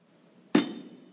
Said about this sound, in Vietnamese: Thầy đập cái bàn đó là ai nghe hết phải không?